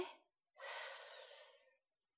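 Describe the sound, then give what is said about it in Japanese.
A single deep breath in, drawn slowly through the mouth as a soft, airy hiss that lasts just over a second and then fades. Before it there is a brief, quieter breath sound, and nothing else is heard. “深呼吸してみろよ。もっとリラックスできるから。ほら、あたしと一緒に。吸って。”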